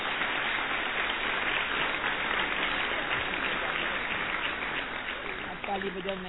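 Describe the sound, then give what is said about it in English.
Audience clapping at a family gathering: a thick, even patter of many hands runs steadily throughout, with a voice briefly surfacing near the end. “So big clap for those.”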